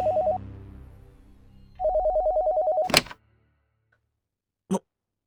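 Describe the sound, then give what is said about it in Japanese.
Telephone bell ringing unanswered in fast trilling bursts, a short ring and then a longer one, followed by a sharp clunk and, after a silence, a single brief click. “電話なかなか出なかったんで、お留守かと思って切ろうとしてたんですよ。”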